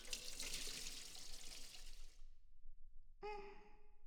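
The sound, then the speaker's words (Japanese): Hot water poured over a head during hair washing makes a loud, steady splashing rush for about two seconds. It stops abruptly, and after a short silence a brief voiced gasp follows. “お湯をかけるから、目をつむって。”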